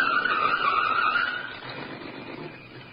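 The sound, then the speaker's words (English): A car approaching, its engine and tyre noise carrying a strained tonal whine that is loud at first and then drops into a quieter, rougher rumble. “The answer to that's in the car now approaching.”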